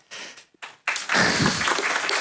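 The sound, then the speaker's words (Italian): An audience breaks into applause of encouragement after a brief near-silence. The clapping starts suddenly and then holds as a steady, full wash of many hands. “E ci vuole anche l'applauso di incoraggiamento.”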